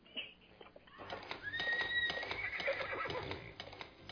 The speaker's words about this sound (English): Let the power of the horse work for you.